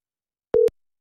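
A single telephone tone sounds while a call is placed to a contest winner: one short, steady, mid-pitched electronic beep lasting a fraction of a second, alone against silence.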